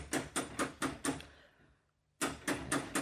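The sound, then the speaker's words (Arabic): Knocking on a door at home, two bursts of several sharp, evenly spaced raps separated by a pause of near silence. “قوم اتفضل قوم شوف شكون يطبطب على الباب.”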